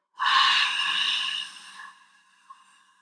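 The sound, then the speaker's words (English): A deep exhale during a breathing exercise, stomach pushed in: a loud, breathy rush of air that starts abruptly, holds steady for over a second, then fades, with a faint brief click afterward. “We're going to push our stomach all the way in. So, one, exhale.”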